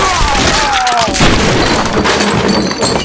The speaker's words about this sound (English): both Betty and Sally looked up at Shotgun and Gimpy and pulled the triggers on the short-barreled pistols both of them carried